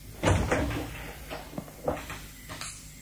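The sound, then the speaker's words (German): A door, the left-hand one, is opened and closed, giving a few short knocks and clicks over a soft background hiss. “Die linke Tür.”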